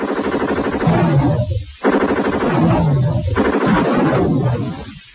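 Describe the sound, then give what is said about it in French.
Machine gun fire from an Amiga video game: harsh, dense bursts of rapid shots that keep going, broken by one short pause, with a thin and gritty tone. “La bande sonore n'a rien d'inoubliable, l'action est surtout ponctuée de vos tirs de mitrailleuse et du cri des mourants.”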